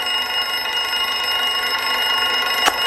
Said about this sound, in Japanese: 目覚まし？